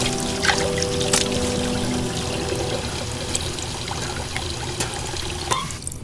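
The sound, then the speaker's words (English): Water splashing and trickling as handfuls are cupped from a wash basin and thrown over a face below deck. The liquid noise is continuous, with a few brief, sharper splashes rising above it. “Below deck, Marcus cups handfuls of water from a wash basin over his face.”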